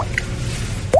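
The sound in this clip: Drops of Tacoronte-Acentejo wine dripping: a faint high drip, then a louder drop near the end with a quick upward-bending tone.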